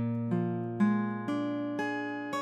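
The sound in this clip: A B-flat 7 sharp 9 chord is picked note by note: about six separate attacks, evenly spaced, overlap and ring together into a full, sustained harmony.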